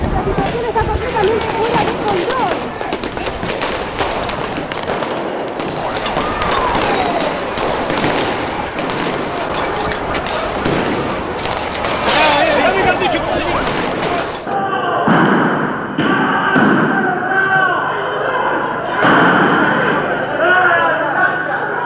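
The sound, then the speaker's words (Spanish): Sharp bangs and gunfire as police fire on protesters during street clashes near a bridge in 2002, with many rapid cracks and pops over dense crowd noise and voices, loud throughout, the texture shifting partway through. “Gases, disparos. Tremendo lo que está ocurriendo. Grandes enfrentamientos en la zona. La policía dispara contra los piqueteros.”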